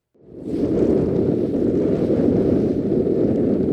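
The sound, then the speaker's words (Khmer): Glacier ice chunks churn where the Russell Glacier meets seawater, a loud, steady, rushing roar that swells in within the first half second and then holds without a break. “នេះគឺជាសម្លេងនៃផ្ទាំងទឹកកកដែលមានដុំទឹកកកនៅពេលដែលផ្ទាំងទឹកកករ៉ូសែលជួបនឹងទឹកសមុទ្រ”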